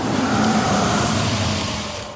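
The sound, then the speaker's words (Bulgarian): A car's internal combustion engine runs with a loud, steady mid-pitched drone, its tone holding fairly constant before easing slightly toward the end. “Искаш ли да научиш коя е идеята, която промени света завинаги? Ще ти подскажа. Двигателят с вътрешно горене.”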